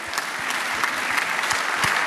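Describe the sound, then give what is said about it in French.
Steady audience applause at a comedy festival, dense continuous clapping with no pauses, fairly loud and even across the whole stretch. “Et applaudissements, double applaudissement pour Adrien”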